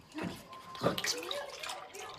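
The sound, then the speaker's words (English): Orange juice poured from a container into a glass in a kitchen: a quiet liquid splash and gurgle lasting about two seconds, with a few faint glugging notes. “He pours a glass of orange juice.”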